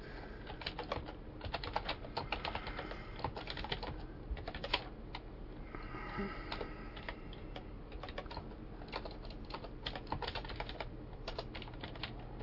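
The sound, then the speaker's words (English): Faint typing on a computer keyboard: rapid, irregular keystrokes clatter continuously with brief pauses between bursts, with no voices. “Let me look it up.”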